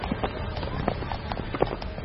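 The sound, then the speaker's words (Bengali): Horse-drawn carriage driven off by a coachman from outside a station: hooves clatter in an irregular patter, with a few sharper knocks over a dense, rough rumble of wheels and road noise throughout. “স্টেশনের বাইরে গাড়ি দাঁড়িয়েছিল, জিনিসপত্র তুলে দিয়ে coachman গাড়ি হাঁকিয়ে দিল।”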